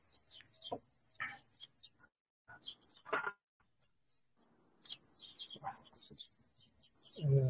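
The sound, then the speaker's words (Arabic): Birds chirping in a tree outdoors on a sunny day: faint, short, high-pitched calls scattered irregularly, with quiet gaps between clusters. “انت عندك عصافير ولا ايه؟ لا انا واقف تحت الشجره كده عشان الشمس بس. ايوه كده، ما سمع في عصافير كده ما شاء الله، يا بختك.”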